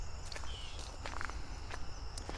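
Footsteps crunch along an outdoor path at night toward a bridge over a pond, a few uneven steps over a soft background hiss.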